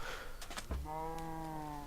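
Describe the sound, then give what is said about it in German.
A cow moos in a video game, one drawn-out low, buzzy call rising out of steady background noise. “Ah, können noch ein paar Kühe schlachten. Kriegen wir noch ein bisschen Beef hier.”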